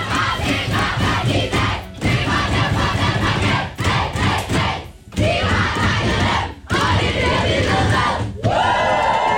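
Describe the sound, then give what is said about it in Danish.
Denmark's women's national football team cheers and chants in its locker room after a win over Serbia: loud, dense group shouting and whooping that continues throughout, broken by a few brief dips. “Det er lyden fra omklædningsrummet hos de danske fodboldskvinder i går.”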